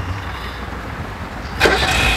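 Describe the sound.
A car engine starts as a man gets behind the wheel. After a low, steady background hum, the engine catches with a sudden loud burst and keeps running.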